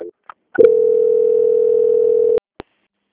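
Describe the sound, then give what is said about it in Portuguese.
Telephone tone during a call transfer: after a couple of short blips, a single steady mid-pitched tone holds for about two seconds, then cuts off with a click and one brief final pip. “Só um momentinho, vou transferir, tá, seu Wagner? Aguarde em linha, por gentileza. Certo. Transferência.”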